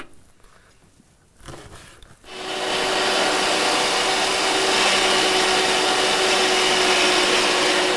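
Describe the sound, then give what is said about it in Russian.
An electric meat grinder mincing meat starts with a few seconds of quieter handling, then settles into a loud, steady whirring motor drone with a constant hum running through it until the end. “Нарезаем кусочками, которые впоследствии пропустим в нашу мясорубку.”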